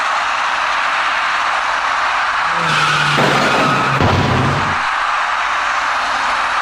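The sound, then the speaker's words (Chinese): Tires screech as a dark small car strikes a man riding an electric bicycle through a red light at a road intersection, a sustained squeal ending in a brief impact burst over steady traffic noise. “那位骑车人被一辆深色小客撞翻于地。”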